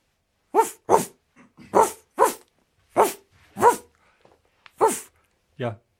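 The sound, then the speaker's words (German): A person imitating a dog barking with a series of short, loud, voiced barks in an uneven rhythm, heard alone with brief pauses between them. “Ich habe meine Kollegen und Kolleginnen gerade auch in der Hundesprache begrüßt.”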